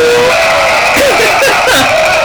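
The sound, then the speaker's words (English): Loud studio audience in Denver cheering and whooping, a dense, continuous roar of many voices with brief shrill shouts rising out of it throughout. “Wow, you're so loud, audience. They truly were.”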